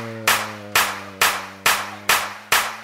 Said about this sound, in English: Everybody just clap your hands to the beat. Clap it, clap it, clap it, clap it, clap it,